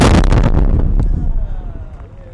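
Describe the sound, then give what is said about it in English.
A loud, heavy blast from an IED detonated by a Marine near Marja. A dense booming roar hits at once, then rumbles and slowly fades over about two seconds. “Soraya was standing next to a Marine who had just found and detonated an IED”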